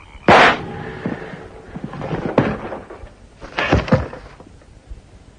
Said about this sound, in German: Und ich werde die Pistole abdrücken. Jetzt.